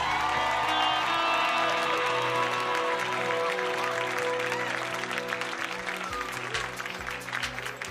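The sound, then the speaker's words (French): Audience applauding and cheering at a religious gathering, dense steady clapping with scattered shouts and whoops, loud and continuous throughout with music tones underneath. “Est-ce qu'on peut encore acclamer Jésus ce soir”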